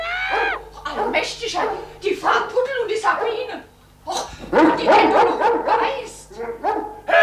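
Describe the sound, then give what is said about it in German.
A rabid dog barks and yelps loudly in rapid, irregular bursts, the harsh barks crowding together with brief pauses between volleys. “Ey, guck doch mal aus dem Fenster. Ey, da passiert doch was. Ein toller Hund.”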